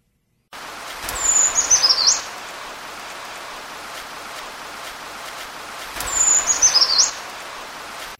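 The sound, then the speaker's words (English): Brown creeper song: two short, thin, very high-pitched phrases of quick wavering notes, each about a second long and several seconds apart, over a soft steady background hiss. “So here is the brown creeper song.”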